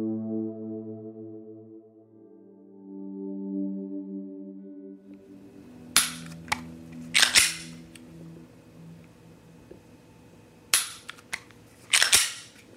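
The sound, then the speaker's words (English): Sharp gunshots from a gun fired at a target ring out in two clusters of several cracks each. A steady, low droning tone plays before them and fades as the shooting starts. “It's funny how sometimes you think you have it perfect, and then you shoot the gun and it's like, ah, that didn't land exactly on the target where I wanted.”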